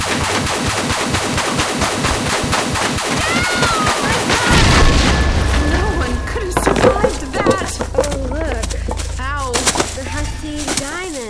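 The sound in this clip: An explosion bursts out after a rapid rattling run of sharp pulses, hitting with a heavy boom and a lingering low rumble while agitated voices call out over the aftermath.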